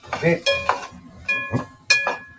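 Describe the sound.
Garlic and bacon are stir-fried in a pan. A few sharp clinking, scraping stirring strokes come in uneven bursts over a faint sizzle.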